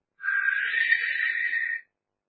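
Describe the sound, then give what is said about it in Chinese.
A single human whistle by a storyteller imitating a character's whistle, one steady, high, sustained tone lasting about a second and a half, faint and alone. “再看侯千芳一打口哨”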